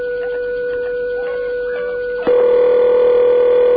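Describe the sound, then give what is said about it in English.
Telephone tone after dialing only the first three digits of an old time-of-day number: a steady, even tone that abruptly switches to a louder, harsher tone partway through and holds to the end. “if you dial that number, you don't get any farther than the 936. And then this happens.”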